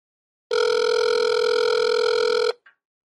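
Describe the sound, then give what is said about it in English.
A telephone ringing tone heard down the line, one steady, loud buzzing tone lasting about two seconds, alone, followed by a brief faint blip as it cuts off. “Come on, ring, ring, ring.”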